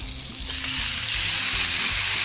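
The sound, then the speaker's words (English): Beef fillet medallions fry in butter in a pan. A loud, bright sizzle surges up about half a second in and then holds steady, with no talking. “This pan is ready for some more butter. All right, we're ready to add our meat here.”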